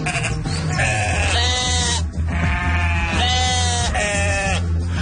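Sheep bleating, as in an apple orchard: several drawn-out, wavering calls follow one another closely over a steady low hum that runs underneath.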